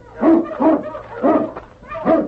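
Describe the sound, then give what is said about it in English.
A dog whines and gives yelping barks on a snowy trail. There are four separate whimpering cries, evenly spaced, each one high and plaintive, with quieter gaps between them. “the great dog King sensed death in the air. What is it, King, huh? All right, fella, you lead the way.”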